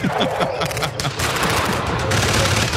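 Gunfire from a staged Normandy beach battle reenactment: sharp overlapping shots crackle rapidly at first, then merge into a dense, continuous volley that stays loud throughout.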